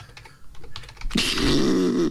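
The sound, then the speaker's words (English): Typing on a computer keyboard as a message is entered: quick clattering keystrokes, sparse at first, then a dense, loud burst of rapid typing with no talking. “he's physically typing into Discord right now”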